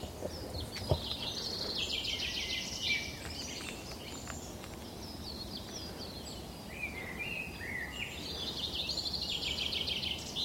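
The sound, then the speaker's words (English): A blackbird sings on Sugar Loaf mountain, faint warbling phrases in two separate bursts with a quiet gap between them, over soft insect-like chirping and a low background hiss. “Look at that lazy, soporific song of the blackbird.”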